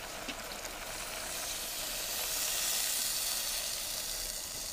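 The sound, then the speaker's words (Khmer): Water poured into beans in a hot sizzling pan sets off a loud, steady hiss and crackle that grows slightly stronger midway and carries on without a break. No voices are heard. “គឺនេះខ្ញុំដាក់សណ្ដែកគួរចូលហើយអញ្ចឹងខ្ញុំសូមដាក់ទឹកបន្ថែមទៀត”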